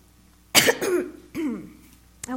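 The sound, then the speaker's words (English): Coughing and throat clearing from a person with a tickle in the throat: a few harsh, raspy bursts, the first loudest and longest, then a rough clearing and a short, sharp final cough, with no talk. “I have a little like tickle in my throat, so forgive me beforehand because I'm going to be clearing my throat and probably I'm going to be coughing and all that.”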